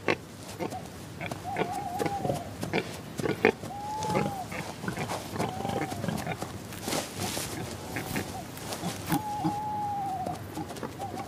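Wild boar grunt and snuffle in a forest at night, giving many short, rough grunts in an irregular rhythm. Several short, arching whistled calls rise and fall in pitch above them.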